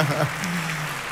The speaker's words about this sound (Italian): Oh, l'applauso del teatro se l'è meritato.